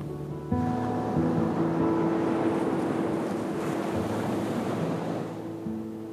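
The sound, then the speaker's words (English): Ocean waves surge onto the shore in a steady, rushing wash that swells and eases, with soft sustained musical tones beneath. “You're watching the waves ebb and flow, and they're slowly coming in.”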